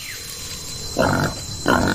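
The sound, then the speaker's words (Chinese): Wild boar grunting: two short, harsh, noisy bursts, each about a quarter second long, separated by a brief gap and heard alone against a low background. “这头野猪的体型与塔拉相差无几”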